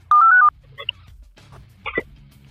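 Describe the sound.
A telephone keypad dialing tone, one steady two-pitched beep lasting under half a second as someone places a call, followed by a few faint clicks and low background noise.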